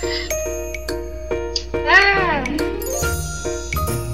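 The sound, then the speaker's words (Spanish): A message notification ringtone jingle made of bright, tinkling chime tones in quick succession. A brief gliding melodic swoop sits in the middle, and the tones continue at steady loudness throughout. “para Jorge Ávila, quiere un ringtone, si es posible, de ambas.”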